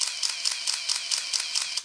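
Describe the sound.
A large 1975-era camera motor drive, two drives in one with an extra battery, firing continuously: a loud, buzzing mechanical whir-clatter in rapid, even cycles, heard alone and cutting off at the end.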